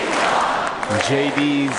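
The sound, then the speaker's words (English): A crowd chants inside Fiserv Forum at a convention where an Ohio senator accepts the vice-presidential nomination. A dense roar of many voices resolves into a sustained, pitched group chant in the second half. “Fiserv Forum crowd chanting JD's mom, a name the pick first revealed here on Monday.”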